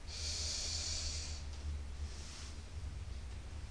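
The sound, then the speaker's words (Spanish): A slow inhale during a muscle-tensing relaxation exercise. The soft, airy hiss is drawn in for about a second and a half, followed by a fainter breath of air. “inhala”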